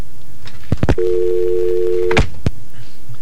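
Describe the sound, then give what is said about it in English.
A telephone tone signals an incoming call on a call-in line: a few sharp clicks, then a steady, dual-pitched tone held for just over a second, followed by more clicks. “Wait a minute, there's an incoming call.”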